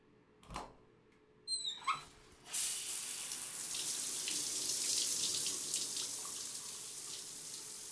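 Water from a tap runs to rinse, starting abruptly after a few short sounds and then flowing in a steady, even, fairly quiet stream until the end.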